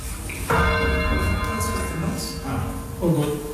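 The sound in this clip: Church bells being rung by a ringing band, a few strong bell strikes with rich, sustained metallic tones that ring on and overlap between strokes.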